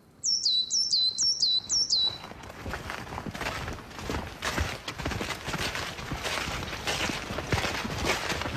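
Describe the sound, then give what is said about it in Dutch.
Bird calls in a forest: several high, quick falling chirps repeat at the start, then a steady run of footsteps on the forest path takes over at moderate loudness. “Zo, we lopen het bos in. Ja, we komen uit het veld. En ja, nu krijg je natuurlijk een totaal andere vogelwereld.”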